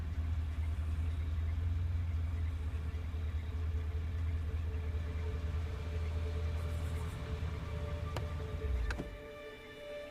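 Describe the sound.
A car engine idles with a steady low rumble for about nine seconds. A couple of sharp clicks follow, then the rumble drops away as the engine is switched off, leaving a faint hum.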